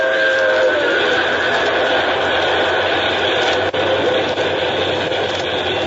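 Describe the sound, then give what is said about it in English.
A 4-6-4 Hudson-type locomotive pulls in with a steady, loud rumbling drone that holds throughout, with a couple of brief dips near the end. “Right on time. It's a 464 type locomotive. Looks like a Hudson.”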